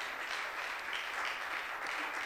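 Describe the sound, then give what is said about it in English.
Congregation clapping hands in praise: a faint, steady wash of dense applause that runs evenly throughout, with no separate claps standing out. “We give God a hand clap of praise in Jesus' name.”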